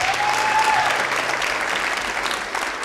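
An audience on the Red Barn stage applauds as a singer is welcomed for a live music set, giving a dense, steady wash of clapping that stays loud throughout and eases very slightly toward the end.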